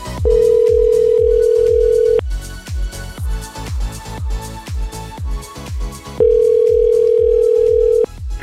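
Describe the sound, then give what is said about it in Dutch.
Ringing tone of an outgoing telephone call being placed. Two long, steady mid-pitched tones of about two seconds each are separated by a four-second gap, over a rhythmic, thumping music bed, with no talking. “En eh, we gaan die zo meteen bellen.”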